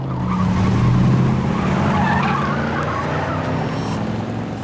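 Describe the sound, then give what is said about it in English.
Mustangs screech their tires as they swing through a U-turn and tear off down a city street. The tire squeal and engine noise are loud and continuous, swelling early and then holding steady. “Mustangs do a U-turn and scratch off down the street, followed at a discreet distance by Nick Hume.”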